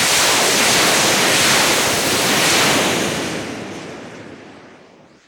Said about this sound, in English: These are kind of mono shotgun mics aimed at rockets from a source perspective, which is exactly what I want. If I render this out, we're going to see a whole bunch of rockets moving from right to left.